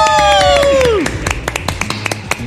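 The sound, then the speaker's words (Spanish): Scattered clapping welcomes a visiting fan from Cochabamba on an iLife channel show. A descending tonal sound effect comes first, then a few sparse, sharp claps with voices nearby. “le demos un aplauso y también darle la bienvenida porque hoy nos está visitando una gran fan de iLife que mira todo el tiempo el canal y viene directamente desde Cochabamba. Un aplauso, por favor.”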